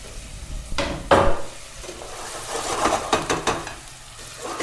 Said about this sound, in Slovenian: olje je že čudovito vroče in sedaj bom torej dal čebulo not in to lepo zlato rumeno opražil.